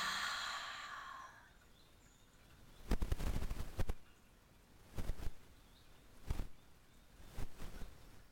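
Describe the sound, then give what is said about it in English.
Quiet breathing from a group breathing exercise: a deep exhale released after a held breath, followed by a few shorter, softer breaths, faint against a hushed background. “breathe in really deep, going deep, deep down into your lungs. Breathe in. And hold it so that the air goes all through our bodies and release.”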